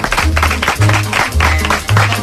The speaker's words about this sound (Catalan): Un aplaudiment per Mireia Giró i un aplaudiment també per Raül Romeva.